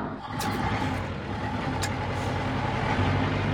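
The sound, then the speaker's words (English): A large Land Rover drives at night with a steady low engine drone and faint tonal hum that stays constant throughout, broken by two brief high ticks early on. “It's something like 2 a.m. and I'm driving George the Farmer's massive Land Rover in the middle of nowhere.”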